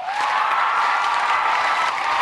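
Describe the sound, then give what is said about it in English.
Loud, rapturous ovation from a sold-out audience at a Harvard Books event in the First Parish in Cambridge, Massachusetts, welcoming young adult author Angie Thomas. Many hands clap in a thick, unbroken roar. “Believe me, that rapturous ovation was not for me. It was for 29-year-old young adult author Angie Thomas”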